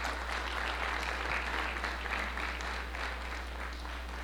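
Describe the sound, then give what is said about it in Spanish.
Audience applause at a 2016 spirits and distillates congress during a bartending service session: a fairly faint, even patter of many hands that carries on throughout over a constant low hum. “para tener un aplauso aquí para el señor también.”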